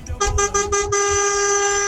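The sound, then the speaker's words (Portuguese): A car horn honks on a highway: a quick series of short toots runs straight into one long, loud held blast with a bright, steady tone. “pela buzina aí, deve estar na rodovia. Vai, vai, buzina aí.”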